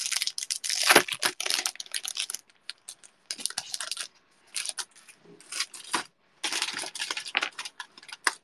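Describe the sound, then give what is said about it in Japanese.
An IC card sticker is pulled out of its packaging with crisp crinkling and rustling of plastic, coming in several bursts separated by short pauses. “IC カードステッカーを取り出しましての”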